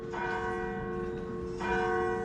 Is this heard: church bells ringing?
yes